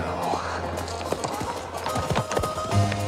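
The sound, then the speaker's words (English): Hooves of a posse of horses galloping in a Western scene, a quick, busy clip-clop of many hoofbeats running steadily through the whole stretch. “He sees a posse galloping towards him.”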